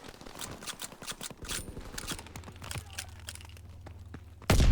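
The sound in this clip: Gunfire from a Type 100 weapon in a video game: a fairly quiet, rapid string of sharp shots that thins out, then a sudden loud burst of noise at the very end.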